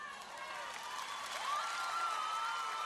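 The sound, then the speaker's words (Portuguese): Applause and cheering from a crowd, a dense, even wash of clapping with a sustained whistle-like whoop that rises and holds through the second half. “Pira, outra salva de palmas.”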